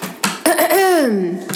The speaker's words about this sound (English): She always clears her throat.